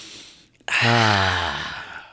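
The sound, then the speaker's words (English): A long, loud breath drawn in through the nose: a rushing, breathy sound of about a second and a half that starts abruptly after a short quiet pause and slowly fades. “And a breath in through your nose.”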